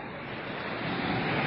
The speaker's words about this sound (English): The wind and the tide.